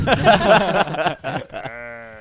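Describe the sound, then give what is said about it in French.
A person imitating a cow with the voice, producing bleating, moo-like vocal calls that end in a steady, held nasal tone. “Il fait une vache, il fait une vache”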